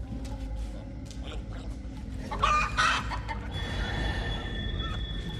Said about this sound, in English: He pokes a chicken.